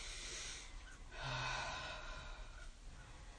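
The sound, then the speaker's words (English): Deep breaths drawn in through the nose and pushed out through the mouth during a guided exercise: soft, airy rushes of breath under a steady background hiss. “start to take some deep breaths in through your nose, out through your mouth. Good, again.”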